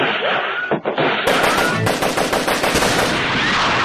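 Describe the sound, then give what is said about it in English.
Gunfire sound effect of rapid machine-gun fire, a loud, dense stream of sharp shots that runs almost continuously after a short opening burst. “Shot from gun.”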